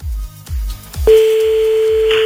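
A telephone ring tone sounds on a call line: a few low thumps give way to a steady, single-pitched electronic tone that holds evenly to the end.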